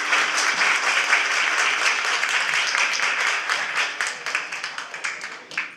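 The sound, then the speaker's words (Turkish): Audience applause at a community program in Munich, given as a young anthem-reciting competition winner is invited onto the stage. Dense, sustained clapping that holds steady, then thins into separate, uneven claps toward the end. “Melina Karaman evladımızı İstiklal Marşımızı okumak için alkışlarınızla sahneye davet ediyorum.”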